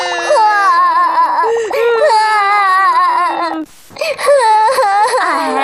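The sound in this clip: Children crying loudly in sustained, high-pitched wailing sobs that waver in pitch, breaking off briefly near the middle before the crying starts again.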